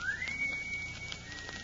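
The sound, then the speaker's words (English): A single whistle sounds from the cellar of a house, a thin tone that glides upward and then holds steady for under a second, faint over background noise. “That whistle? Yes. I imagine it's just one of the fellas outside or something.”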